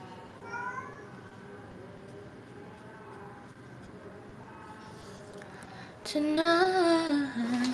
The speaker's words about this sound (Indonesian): Aduh, ih kasar banget sih ini kucing, tolong mas.